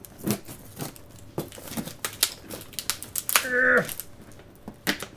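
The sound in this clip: Packing tape being pulled off a package during an unboxing, heard as a run of sharp crackling rips with a brief squealing screech partway through.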